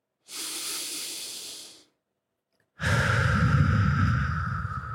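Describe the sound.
Slow, deep breathing during a guided breathing meditation: a soft, airy breath lasting over a second, then a pause, then a longer, louder and fuller breath carrying on to the end.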